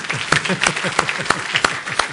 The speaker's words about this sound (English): a round of applause for my demo bunny